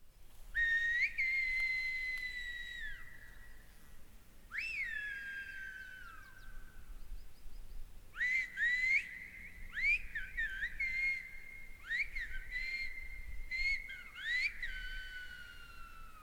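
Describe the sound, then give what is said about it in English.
Whistled Spanish from two sisters on La Gomera: clear, high, pure whistles with gliding pitch, two long sweeping phrases followed by a run of shorter, quick whistled syllables, heard alone without speech. “It's actually Spanish. They are whistling in Spanish, right? Like it's actual words.”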